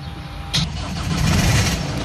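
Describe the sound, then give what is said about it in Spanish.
A car engine is started: a short, sharp cranking burst gives way to a steady, low, rumbling idle that stays loud and even to the end. “Vale, encienda el motor.”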